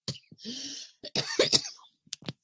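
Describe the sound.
Coughing and throat clearing from a person suffering from birch pollen allergy, a few short, rough, fairly quiet bursts separated by brief pauses.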